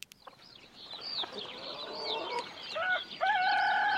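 A rooster gives a quiet run of short, varied clucks and calls, then breaks into a strong, sustained crow at the end.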